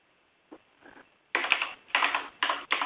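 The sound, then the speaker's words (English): Keys clatter on a computer keyboard as a name is typed into a chat. A couple of faint taps come first, then several quick, louder bursts of rapid keystrokes, with no talking. “I typed your name this moment into the IRC to remember you.”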